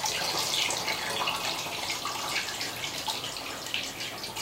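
Running water rinses a film developing tank while a roll of Ilford 120 black-and-white film is washed, a steady, even rush and hiss of flowing water with no talk.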